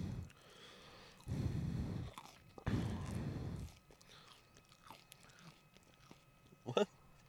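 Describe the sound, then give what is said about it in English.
Fries are chewed right at the microphone in a few short, faint, crunchy bursts separated by near silence. A sharp click stands out near the end. “I'm just like chewing. Oh, you're chewing.”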